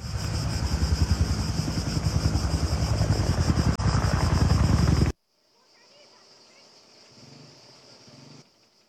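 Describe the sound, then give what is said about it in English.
Loud, rhythmic rotor thudding and roaring engine noise from firefighting helicopters during wildfires, moments before a midair collision. The noise cuts off abruptly and is followed by a much quieter, fainter rumble. “What you heard there was the moment the two helicopters collided in midair.”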